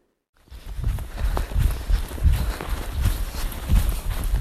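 Running footsteps of someone out for a jog: a string of dull, low thuds at a quick, fairly even pace, blended into a constant rushing noise that starts abruptly and holds to the end.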